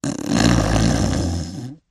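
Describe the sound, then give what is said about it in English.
An elephant snoring as it naps: one long, loud, rumbling snore with a rough, gravelly texture that holds steady for nearly two seconds before cutting off. “And when they got there, Elephant was busy taking a nap.”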